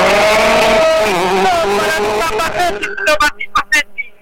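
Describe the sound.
A rally car launches on a special stage in Argentina: its engine revs with a wavering pitch under a voice, then breaks into a rapid series of sharp bursts and pops as it pulls away.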